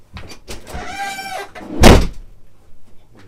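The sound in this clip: A door slams shut with a single loud, sharp bang after a few quieter shuffling sounds and a brief tonal creak, then the room falls quiet with only faint noise.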